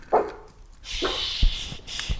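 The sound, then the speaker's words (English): A puppy gives a few short, sharp yelps and whimpers in separate quick bursts, with quiet gaps between them and no talking. “it's my pup”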